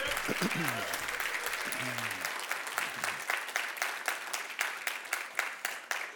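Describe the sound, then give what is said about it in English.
Dense applause from a church audience, steady and loud for the whole stretch, with voices calling out over the first few seconds before the clapping thins into more distinct claps toward the end. “Let's give him some praise for that.”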